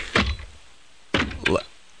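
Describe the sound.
A jail cell door closing sound effect: three heavy thuds, a single one first, then a close pair about a second later, with quiet between them.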